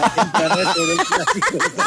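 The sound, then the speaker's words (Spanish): A rooster crows in short, strained, harmonic bursts, with one longer falling call in the middle and choppy squawks around it. “El gallo es una chimba.”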